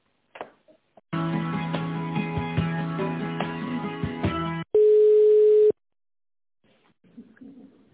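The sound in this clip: Telephone line tones during an office call transfer: a buzzy, harmonic-rich line signal lasting about three and a half seconds, then a single steady, loud beep of about a second, followed by a brief quiet stretch with faint noise.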